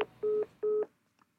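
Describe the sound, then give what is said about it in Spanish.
Telephone dialing to call back after a dropped call: a few short, clear keypad tones in a quick, even rhythm, fairly faint, then silence. “Así que lo vuelvo a llamar.”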